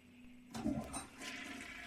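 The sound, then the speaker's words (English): A toilet flushes: a sudden burst of gushing water after a short quiet lead-in, then a sustained hissing rush of refilling water to the end. “I flush and pull with the other hand. Bro, do not flush the toilet.”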